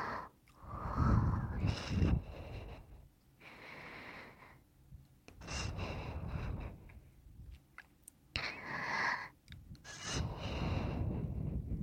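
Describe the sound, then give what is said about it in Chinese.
Strong, forceful breathing through the nose and mouth together, in a few loud, noisy bursts of air separated by quieter pauses. “鼻子和嘴巴同时用力呼吸的话，你会闻到非常浓烈的味道。”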